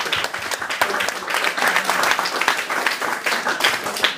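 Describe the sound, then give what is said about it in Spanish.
Applause from a group clapping together, a steady, dense patter of many hands that holds at an even level for about four seconds. “Señores, un aplauso para Spike, que ya haya llegado tarde.”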